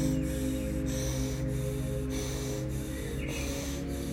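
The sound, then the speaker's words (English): Rapid, rhythmic breathing in and out through the nose during a breathing exercise: a steady series of short, quick nasal breaths, evenly paced, over a constant low background. “So for 90 seconds, we're going to inhale nose, exhale nose, which will sound like this.”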